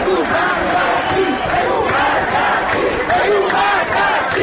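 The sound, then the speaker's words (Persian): A protest crowd on Enghelab Street chants slogans, many voices shouting together in a loud, continuous rhythmic mass that stays strong throughout. “شعار دوم از انتهای خیابان انقلاب که میرسد خیلی آرام و نامفهوم است، اما موجش جمعیت را میگیرد و ناگهان صدا بالاتر و بالاتر”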